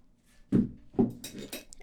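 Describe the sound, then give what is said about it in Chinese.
Bowls and chopsticks being cleared away after breakfast: two soft knocks of dishes, then a quick run of brighter clinks. The sounds are fairly faint, with no talk. “你西装我给你熨好了，在衣帽间呢，你去换上吧，我得收拾下碗筷。”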